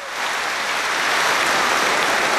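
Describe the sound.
A large crowd of football fans at a Championship match in Middlesbrough applauds as a minute's tribute: dense, even clapping that builds quickly and then holds steady and loud throughout, with no voices standing out.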